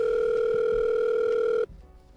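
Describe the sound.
A steady telephone tone sounds while a call to a colleague is placed. It holds loud and unbroken for about a second and a half, then cuts off abruptly into faint low noise.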